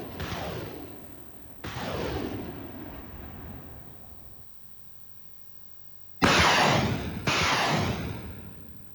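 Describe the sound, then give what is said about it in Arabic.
Heavy artillery and rocket launcher fire shelling positions south of Marib, Yemen: four deep booming blasts with long rumbling tails, two moderate ones, a quiet pause, then two louder ones in quick succession. “صورا قالت إنها لقصف قواتها مواقع لجماعة الحوثي جنوبية مأرب بالمدفعية الثقيلة ورجمات الصواريخ”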